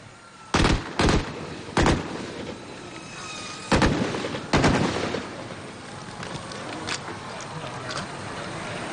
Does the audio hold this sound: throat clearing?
no